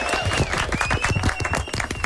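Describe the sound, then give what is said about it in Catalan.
An audience applauds with dense, steady clapping for about two seconds, loud and even, with a few voices mixed in. “porta aplaudiment.”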